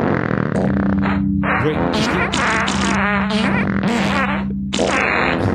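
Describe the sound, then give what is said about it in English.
Fart sounds: a long run of loud, buzzing, sputtering blasts that keep coming one after another, layered over a steady low drone. “No one should have to smell anyone else's farts, but it shouldn't stop you. Brag about how often your air turns over. Do it outdoors. Right. And then you have the sound, right?”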